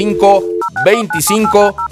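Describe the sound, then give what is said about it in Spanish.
Telephone dialing tones beep in a quick series of short, steady dual-pitch chirps, running under a talking voice. “Qué bonito se escucha la marcación del teléfono.”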